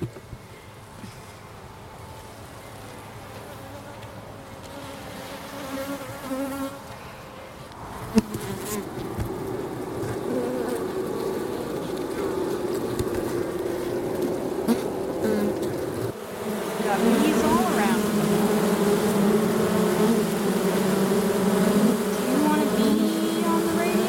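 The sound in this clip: Honeybees buzz inside a beehive, a dense, steady drone that steps up in loudness partway through and again later, thickening into a fuller hum toward the end.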